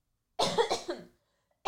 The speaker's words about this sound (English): I'm so sorry for being gross with my coughs, you guys.